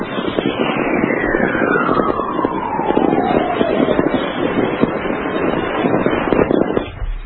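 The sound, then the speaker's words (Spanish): A radio recording of magnetic storm chorus, picked up in Reno: dense crackling, hissing noise fills the whole clip while a whistling tone glides steadily downward over the first few seconds. “esta vez obtenida en Reno, y se puede decir que son coros de una tormenta magnética, porque ni más ni menos así sonaría un viento solar de 44 kilohercios.”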